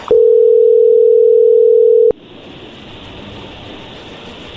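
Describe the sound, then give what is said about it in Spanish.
A telephone tone plays while a number in Colombia is being called: one steady, loud, even tone for about two seconds that cuts off abruptly and leaves a faint hiss on the line. “Vamos a llamarle a Colombia, a Rocío, la mujer que tú amas”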